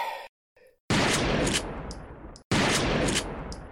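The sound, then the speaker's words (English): Gunfire sound effect in two loud, sustained bursts of harsh noise, each lasting about a second and a half and fading slightly, separated by a brief silence and preceded by a short faint sound. “Put that down, please. You're going to hurt someone. You know you can't shoot through a 6-inch thick reinforced steel security blast door.”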